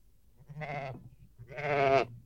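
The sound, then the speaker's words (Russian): A ram bleating while caught by its horns in a thicket: two wavering, nasal bleats, the second louder and longer than the first, heard alone. “Я слышу блеяние овна! Да, сын, он запутался в чаще рогами.”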